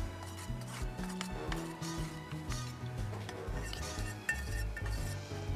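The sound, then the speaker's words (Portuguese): Fragrance essence is stirred into candle wax: faint, continuous scraping and rubbing of a utensil in a container, with light clinks scattered through. “Aí agora a gente vai colocar a essência. A essência. Aqui a gente tem já uns 2, 3 ml, tá? Só colocar. Mistura.”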